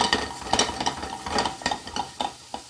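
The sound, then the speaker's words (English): Raspberries and sugar stirred in a pan to caramelize, with a utensil scraping and clicking against the pan in an uneven, repeated rhythm over a soft sizzle. “You start to see as I mix this around here, what we're trying to do is we're trying to get these raspberries to caramelize with the sugar.”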